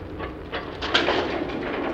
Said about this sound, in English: The rumble of wheels on old metal rails brings Derek back to himself